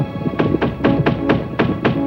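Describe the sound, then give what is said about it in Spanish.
Knocking on a door: seven firm raps in a quick, slightly uneven run, loud and clear over a steady low tonal background. “Llaman a la puerta.”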